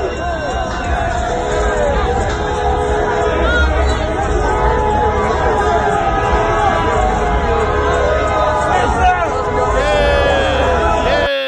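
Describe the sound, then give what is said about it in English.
Horns blare without pause at a huge street celebration by the Staples Center in Los Angeles after the Lakers' NBA championship win, over the loud, dense roar of a crowd. “So those horns were at the huge city blocks wide bash last night at the Staples Center in LA after the Lakers won the NBA championship.”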